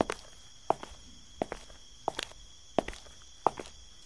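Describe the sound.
People walking through a forest make footsteps that land at a slow, even pace, each a soft, faint thud, with a few lighter extra steps between them.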